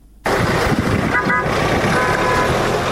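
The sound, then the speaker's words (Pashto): A car horn sounds briefly in a maize-farming district near Lashkar Gah in Helmand, a short tonal toot rising out of loud, steady background noise. “دغه راپور جوړ کړی او د یو موټر په اران پیلېږي”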